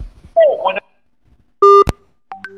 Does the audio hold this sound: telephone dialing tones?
yes